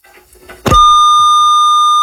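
A telephone disconnect tone sounds after a call drops: a single steady, mid-high electronic tone starts partway through and holds unbroken and loud to the end, with faint low sounds before it.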